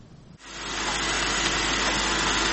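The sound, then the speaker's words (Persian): A remote-controlled Crover robot moving through stored grain, giving a steady whirring, grinding rush that starts abruptly after a brief quieter moment and then continues loud and even. “این ربات چرخنده وظیفه تفتیش غلات را بر عهده دارد. نام این ربات کنترل از راه دور کروور است و به زودی می تواند تا عمق 10 متر درون غلات انبار شده نفوذ کند.”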